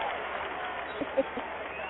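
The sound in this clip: Audience applause welcoming a guest onto a talk show, a dense, even patter of clapping that holds steady throughout, with voices mixed in.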